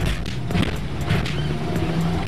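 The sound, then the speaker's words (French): A Renault 4L car engine pulls under acceleration with a loud, rough, rattling drone and repeated surges. No speech is heard. “Alors la 4L, c'est quelque chose de vivant, hein. C'est vraiment très vivant, faut pas hésiter à accélérer.”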